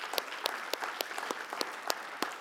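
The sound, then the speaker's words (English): A church audience applauding the salvation of the Lord at the close of a service. The clapping is fairly quiet and scattered, with sharp individual claps standing out from a light, steady patter for the whole stretch. “Would you applaud the salvation of the Lord? Would you do that?”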